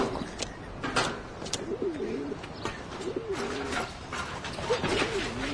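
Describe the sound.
Pigeons coo near a pigeon cage in three soft, rolling, warbled phrases, with faint chirps and clicks scattered around them.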